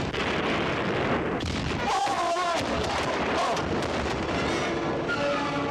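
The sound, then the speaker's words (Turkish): Cannon fire on command aboard a sailing warship in battle makes a dense, continuous roar of heavy blasts, loud throughout with no clear gaps, and voices shout faintly within the din. “Ateş! Ateş! Ateş! Ateş! Ateşe devam!”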